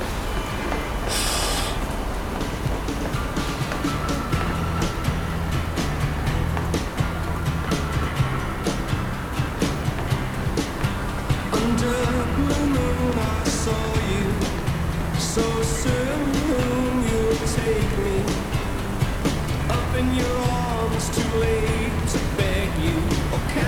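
A metro train passes with a steady, continuous rumble and rattling roar that holds at the same level throughout, with faint whining tones rising out of the noise midway.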